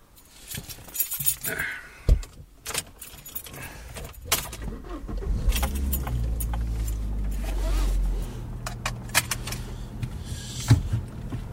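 A car starts to drive off. Keys jingle with scattered clicks and clunks, then a low engine rumble builds and holds for a few seconds before easing, with more sharp knocks near the end.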